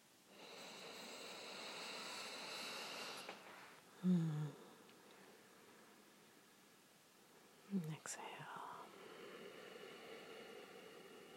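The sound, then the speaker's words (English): Slow, deep inhalations through the nose during a guided relaxation: faint, airy hissing breaths that swell and fade, with a couple of brief snuffling sounds between them. “Take some deep breaths in through the nose.”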